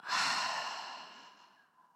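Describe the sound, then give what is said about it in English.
A long breath during a guided breathing exercise, one loud airy rush that starts strong and slowly fades over two seconds, heard alone without talk. “Breathe in. Breathe out.”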